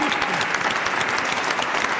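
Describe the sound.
Audience applause, a thick, steady patter of many hands clapping at a fairly loud, even level throughout.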